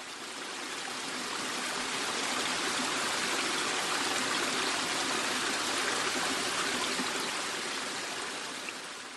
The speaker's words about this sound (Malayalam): ശാന്തമായി ശബ്ദമില്ലാതെ ദേവിയാർ നദി ഒഴുകി ഇങ്ങോട്ട് പതിക്കുമ്പോൾ ഇത്രയും ശബ്ദമുണ്ടാക്കി വാളറ വെള്ളച്ചാട്ടമായി മാറുന്നു.